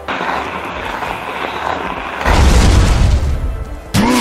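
Attack effect for Psycho Trick, a ghost-type special move in a turn-based video game. A hissing, noisy build swells abruptly into a loud, low, rumbling blast that holds, then drops out before a sharp second burst at the very end.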